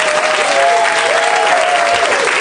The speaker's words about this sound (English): Let's have a round of applause for Patton Oswalt and Adam Carolla.